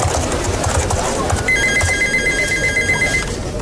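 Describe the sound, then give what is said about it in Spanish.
A telephone rings in an office with a steady electronic trill that starts partway through and lasts nearly two seconds over a constant background hum. “Entonces le llaman por teléfono y activa el manos libres para coger esta llamada de teléfono que suena así.”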